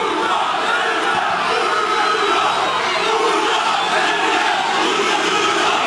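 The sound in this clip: A crowd at a political rally in a public square chants and cheers, a loud, continuous roar of many voices that rises and falls in waves for several seconds without a break.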